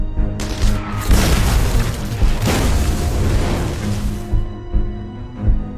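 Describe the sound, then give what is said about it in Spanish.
Artillery fire as a sound effect, a World War II Canadian bombardment of German positions: loud, deep rumbling booms that overlap into a sustained roar for several seconds, then fade into a few lighter thuds. “La artillería ataca las posiciones alemanas que Clark ha identificado.”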